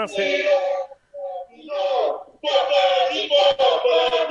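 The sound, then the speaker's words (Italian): Juventus football supporters chant in unison, a loud, tuneful sung phrase in several sustained vocal bursts separated by short pauses, the last stretch running on steadily to the end. “No, volevo ringraziare il mio nuovo pubblico di Juventus, come puoi sentire.”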